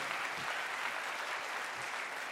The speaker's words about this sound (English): If you believe that, give him a hand clap of praise.